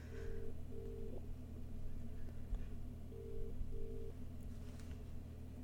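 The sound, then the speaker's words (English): A telephone call being placed to hotel reception: a few short, steady electronic beeps in two pairs sound over a constant low hum, with no talking. “I'm dialing the reception right now.”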